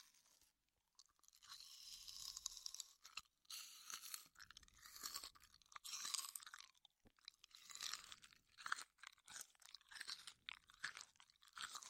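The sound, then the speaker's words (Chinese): A late-night snack, a peach, is chewed with crunchy, wet bites. Many irregular bursts of crunching and mouth sounds follow each other with brief pauses between, soft overall and with no talk. “要是没有用过宵夜，那我吃，你听啊。”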